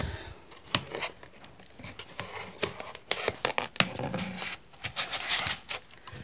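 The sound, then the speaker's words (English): Adhesive tape pulled from the roll and wrapped firmly around an object's body, with many small crackling, sticky tearing snaps in an irregular rhythm, fairly quiet and without talk. “so you've got the tape around the body”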